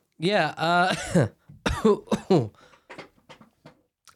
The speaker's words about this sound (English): so, as you can tell, I've got a cough